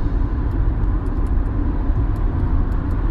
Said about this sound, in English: I'm on the freeway and some guy just buzzed right past me.